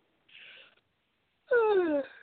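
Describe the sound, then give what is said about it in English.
A person yawning: a short breathy intake, a brief pause, then a louder voiced exhale that slides steadily downward in pitch like a drawn-out moan. “No yawning. I know. It's like that. I don't know where that came from.”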